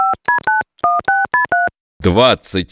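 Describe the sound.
Keypad tones as a time machine is dialed: a rapid run of about seven short electronic beeps at varying pitches, then a brief warbling electronic sweep.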